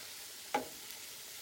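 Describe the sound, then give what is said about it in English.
Onions fry in a frying pan with a constant soft sizzling hiss, broken by one brief scrape of a stir. “And I just moved over to my frying pan to give my onions a stir.”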